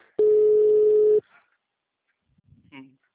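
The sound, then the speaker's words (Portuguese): An outgoing telephone call gives a single ringback tone, a steady mid-pitched hum lasting about a second. Silence follows, then a short murmur of voice near the end. “Agora tá chamando. De manhã ele não atendeu.”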